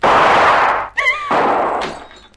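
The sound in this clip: A revolver shot breaks a window pane, a sharp cracking hit with a brief glassy ringing tone that cuts through a steady loud hiss, then fades as the hiss resumes.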